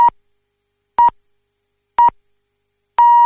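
Half-hour time signal on Polish radio: four evenly spaced mid-pitched electronic beeps, one per second, the first three short and the fourth held noticeably longer, heard clearly alone with silence between them.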